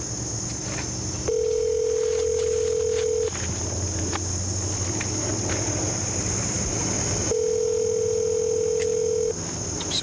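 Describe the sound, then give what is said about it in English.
Telephone line tones as she places a call that reaches a sheriff's office: two steady, low two-second tones separated by a long pause, over a constant thin high whine and faint background noise. “She makes the call.”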